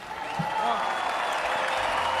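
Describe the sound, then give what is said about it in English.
Crowd at a Newcastle Knights rugby league match cheering for the two teams, a dense, steady roar of clapping and shouting that holds throughout. “Let's make some noise for these two teams here.”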